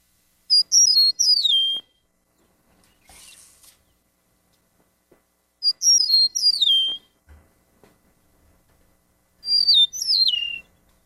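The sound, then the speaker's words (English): Eastern meadowlark song: three separate phrases of clear, high, sweet whistled notes, each slurring downward, spaced by pauses with only faint background sound between them. “The eastern meadowlark, the mnemonic for it, which everybody should recognize as soon as you hear it. It says, spring of the year.”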